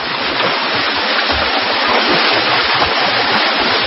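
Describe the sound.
Loud, steady rushing and churning water as a person swims clumsily through it, with no distinct strokes standing out from the continuous wash.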